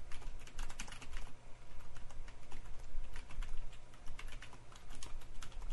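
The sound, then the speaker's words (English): Fast, steady clicking of a computer keyboard as a chat comment is typed, dense and continuous with no pauses or talk. “Let me just type a comment in here.”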